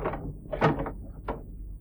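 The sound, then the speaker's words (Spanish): A nurse opening a door that does not creak, staged as a radio drama effect: two soft, muffled knocks about half a second apart over a steady low rumble, with no squeal of hinges. “La enfermera abre la puerta. Puerta que no rechina.”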